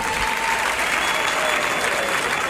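Applause from a live concert audience fills the whole stretch as a dense, steady wash of clapping, holding an even loudness throughout.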